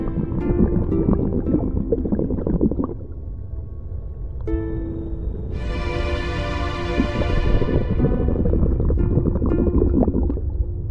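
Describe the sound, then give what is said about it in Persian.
A diver in a diving suit plunges into water. Continuous underwater gurgling and bubbling follow, with a loud hissing splash-like burst midway through over a steady low rumble. “لباس قواسی میپوشه میپره تو آب. تصویر زیر آب.”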